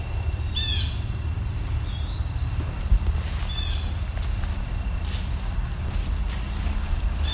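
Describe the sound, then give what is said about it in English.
Blue jays and an eastern wood-pewee call amid many mosquitoes, giving a few short chirping calls and a thin slurred whistle over steady, broad background noise. “both blue jays and the eastern woodpewee here. And a lot of mosquitoes.”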